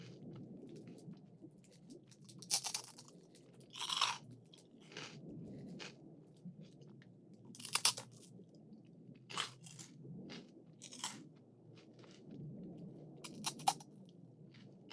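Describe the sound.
Crunchy food being bitten and chewed: a few sharp, separate crunches rise above a faint, low, rumbling background, with quiet gaps between them and no talking.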